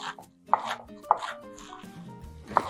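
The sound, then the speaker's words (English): Knife chopping fresh spinach: three sharp, separate chops spaced unevenly over a low, busy kitchen background, with no talk. “And of course, fresh spinach. And we'll chop it up.”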